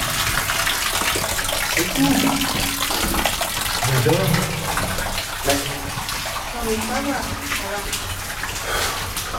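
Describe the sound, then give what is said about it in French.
Hot water runs from a tap in a continuous, even rushing gush that fills the whole clip, while people talk over it. “Attention Attention, l'eau chaude sort de là.”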